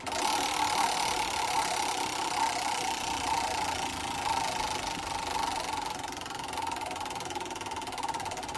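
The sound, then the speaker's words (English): A prize wheel spins during a sports-category game, giving a fast, continuous mechanical clicking that stays fairly even in level throughout, with no talking over it. “Spin the wheel”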